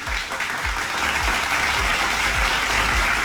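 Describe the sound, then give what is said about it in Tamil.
An audience gives a performer a warm welcome onto the stage with dense, steady applause, many hands clapping loudly and evenly throughout. “அவரை அன்போடு இப்ப மேடைக்கு நாங்க வரவேற்கிறோம். அருண் மேடைக்கு வாங்க. அருண் ஒரு பலத்த கைத்தட்டலோட”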